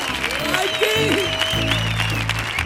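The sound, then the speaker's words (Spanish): Audience in the Auditorio Cartuja applauding during a live radio comedy show, steady clapping with voices calling out over it. “Gente maravillosa que ha acudido al Auditorio Cartuja para el programa 211 del show del Comandante Lara. Un público que suena así de potente.”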